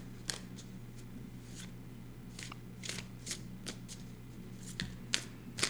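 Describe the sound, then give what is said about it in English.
A tarot card being drawn and flipped: a series of crisp, papery snaps and short rustles, irregularly spaced and fairly quiet, over a steady low hum with no talking. “We're gonna flip a card on Labyrinth Conversation.”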